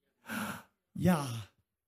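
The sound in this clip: Breath exhaled in two airy bursts, a soft one and then a longer, fuller one, as a voice imitates the sound of breath with breathy, sigh-like exhalations separated by a short silence.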